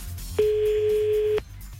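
Telephone ring tone on an outgoing call to a listener: a single steady, buzzy, mid-pitched tone lasting about one second, cutting in and out sharply over soft line hiss.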